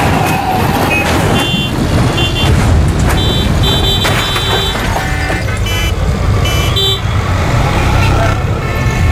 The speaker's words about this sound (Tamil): முன்னாடி லாரி வருது, லாரியை பார்த்து